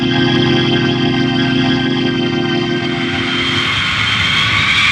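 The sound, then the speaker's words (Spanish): Loud, steady jet roar from a modern Cobra-type jet-thrust combat aircraft flying away, with whining tones layered through a broad rushing hiss that turns brighter in the last seconds. No voices. “A bordo del moderno avión de retroimpulso del tipo Cobra, especial para combate, se alejan de la hermosa isla poniendo ruta hacia el norte”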